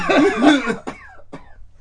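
A voiced, rasping throat clear followed by two short, sharp coughs, loud and alone with no talking.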